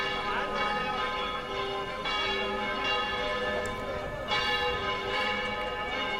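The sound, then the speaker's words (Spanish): Church bells ring in a solemn peal, with repeated strikes whose bright metallic tones overlap and hum on steadily at a moderate level. “De hecho, dejamos sonar porque es un sonido solemne, ¿verdad? Recuerda mucho al Corpus, ¿verdad? Mira que las campanas suenan en muchas ocasiones durante el año,”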